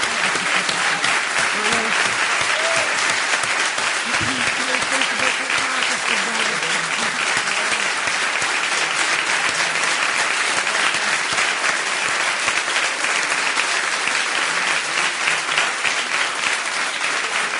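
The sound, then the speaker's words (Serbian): Sustained applause rises from an audience after a live poetry reading evening in a hall. The dense, steady clapping stays loud for the whole length without a break. “Ja vas molim jedan veliki aplauz.”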